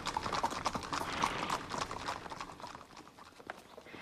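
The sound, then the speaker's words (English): Horses' hooves clip-clop as about a dozen riders enter a courtyard, a dense run of quick, overlapping hoofbeats that stays fairly steady throughout. “The officers, about a dozen of them, ride into the courtyard.”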